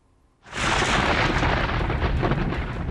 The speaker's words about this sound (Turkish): İşte düşen bu yıldırım faciaya yol açtı.